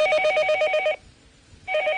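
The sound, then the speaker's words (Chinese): A telephone rings during a call to report an emergency: a loud, rapid trilling bell burst, a short silence, then a second burst starting. No talking is heard. “拿起电话来。 对， 那边呢？ 报警。哎， 打电话了。”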